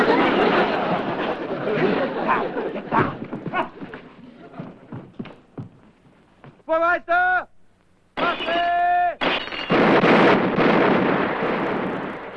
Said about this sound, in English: Hey, watch where you're shooting. Gotta shoot over their heads. We've got the real bullets, remember?